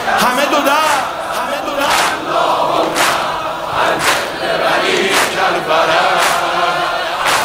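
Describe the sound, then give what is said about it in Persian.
A large crowd of young people chanting in unison, loud and dense, with rhythmic surges of voices recurring about once a second over a constant roar of the crowd. “این صدای این جمعیت این همه جوون”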